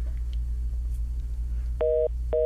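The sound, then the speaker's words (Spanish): After a dropped phone call, a low steady hum gives way to two short, steady electronic telephone beeps near the end, the second cut off. No voices are heard. “Ay, creo que se nos fue la llamada, qué pena.”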